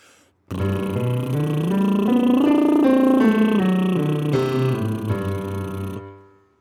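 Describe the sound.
A voice sings a long circular vocal-exercise scale, climbing smoothly from low to high and then easing back down, held as one sustained, connected line.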